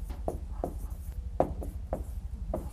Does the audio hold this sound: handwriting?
yes